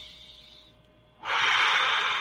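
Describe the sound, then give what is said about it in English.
A deep inhale during a guided meditation: after a quiet, faint airy stretch, a loud, long rush of breath drawn in fills the second half and holds steady to the end. “Breathe in one more time.”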